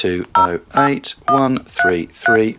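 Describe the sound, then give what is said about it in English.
Keypad tones from the BT SmartTalk app as a phone number is dialled: several short electronic beeps in quick succession, each a brief, fairly loud burst with small gaps between. “What I'm going to do is I'm going to ring the FrequencyCast phone number, which is”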